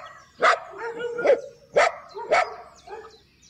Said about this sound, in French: Oh, j'entends quelque chose. Qu'est-ce que c'est? Ce sont les chiens qui aboient.